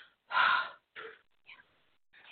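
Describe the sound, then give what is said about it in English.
A person lets out a big exhale during a live reading session: one strong, breathy burst, then a few shorter and fainter breaths spaced apart, with no talk. “Just exhale real quick. Just do a big exhale. Not inhale, exhale.”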